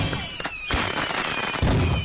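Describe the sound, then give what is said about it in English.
Fireworks going off at a New Year celebration: continuous crackling noise broken by two sharp, loud bursts, with a thin whistling tone running through. “Oh my god, look at the firework.”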